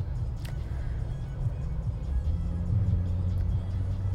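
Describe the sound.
A car pulls up at a gas station with a steady, low engine rumble that holds throughout at a moderate level.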